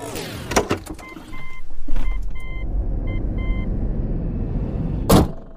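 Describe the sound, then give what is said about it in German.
Electric car setting off on a trip to Berlin: door and window clicks and a few soft chime beeps, then a steady low road rumble that carries on, with a brief louder whoosh near the end. “düsen wir gemeinsam mit meinem E-Auto nach Berlin”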